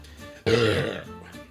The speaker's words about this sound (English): when you belch, when you do the belch, and you get a little bit of a taste of everything that you were missing